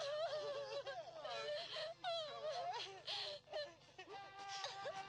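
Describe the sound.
A person crying and wailing: a wavering, high-pitched sobbing voice that rises and falls for several seconds, broken by short gasping pauses.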